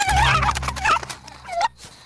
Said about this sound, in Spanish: ¿esto qué es? Una gallina. Este es un gallo.